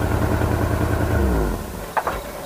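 An engine runs in a motor oil advert, giving a steady low, humming rumble with a regular pulsing beat. The rumble drops away after about a second and a half, and a couple of brief knocks follow.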